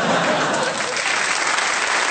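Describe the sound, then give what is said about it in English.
A stadium crowd roars at a new sport record, a loud, unbroken wash of applause and cheering that holds at the same high level from start to finish. “It's a new BBC sport record, and the crowd here have gone absolutely berserk.”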